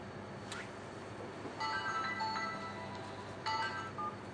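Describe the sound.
Telephone ringing for an incoming call in a home, heard as two faint bursts of electronic ringing tone separated by a short pause.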